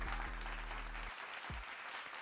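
Canned applause sound effect triggered from a soundboard, a short burst of steady crowd clapping that runs evenly to the end.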